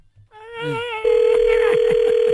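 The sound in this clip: Telephone tones as a call is dialed: a warbling tone, then a loud steady tone that holds to the end, with faint low sounds beneath.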